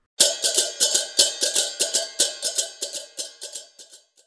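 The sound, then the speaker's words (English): Chang chang crash cymbals ring out in a simple interlocking rhythm: many quick, bright metallic crashes follow one another at a steady, even pulse, each with a shimmering ring, and the strikes grow fainter toward the end. “The most common rhythm for cymbal interlocking is a simple pattern that sounds like this.”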